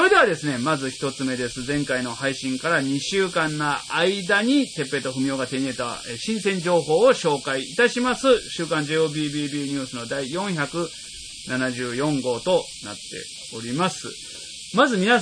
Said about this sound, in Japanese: すごいセミの声なんですよ。 入ってるやろね、これ。 入ってますね。 あ、 今ちょっと僕音聞きながら、 その僕らの声の音を聞きながら収録してるんですけど、 これはクマゼミですかね。